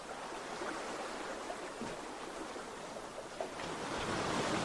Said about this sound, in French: Le bruit de l'eau, toujours. Qui vous guide et vous rassure.